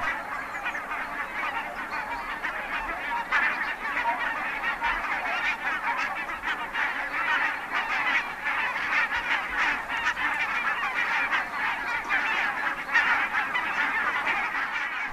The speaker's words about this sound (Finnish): Kaiken taustalla soi valkoposkihanhien nenäsointinen, napakka haukahtelu. Niitä on pellolla tuhansit.